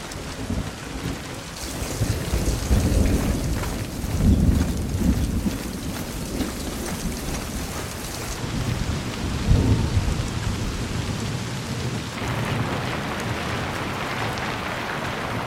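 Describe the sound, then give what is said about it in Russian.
Heavy rain pours steadily on an overcast day at a city gate where boats approach by water. The loud hiss continues throughout while a few deep thunder rumbles swell and fade beneath it. “Пасмурный день. Льет дождь.”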